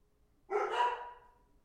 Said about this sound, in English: Unfortunately, I don't have a studio to work out of yet, so the dogs are part of the ambiance.